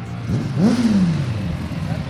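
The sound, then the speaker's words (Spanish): Motorcycles revving in Jerez during the Spanish MotoGP Grand Prix: one engine note climbs, then slowly sinks back down, and voices talk over the rumble. “Ya rugen las motos en Jerez, el puerto de Santa María y localidades aledañas. Este es el ambiente que espera hasta el domingo en la provincia.”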